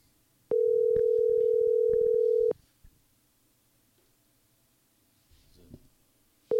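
Telephone call signal while dialing out to people: a loud, steady pure tone lasting about two seconds, then near-silence with a few faint clicks and rustles, and the tone returning at the very end.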